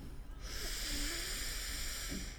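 Deep breath in during a guided breathing exercise: a soft, airy hiss of drawn-in air that starts abruptly and holds steady for about two seconds.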